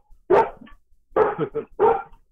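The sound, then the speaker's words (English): A dog barking on a phone call-in line: a few loud, sharp barks in quick succession, with short pauses between them and no talk over them. “Dogs and I don't always get along, but is this the first time one's barked at me from across the country?”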